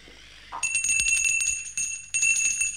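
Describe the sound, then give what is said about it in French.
A small hand bell is shaken in three bursts of rapid, bright, high tinkling that ring on between shakes, fairly faint, with no voices. “Il n'entend point et ma sonnette ne fait pas assez de bruit.”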